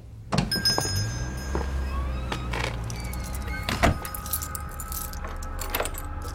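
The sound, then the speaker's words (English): Keys jangle as someone locks up a building, giving a bright metallic jingle with several sharp clicks and one heavier thunk partway through. “I am currently exiting the building and am locking up.”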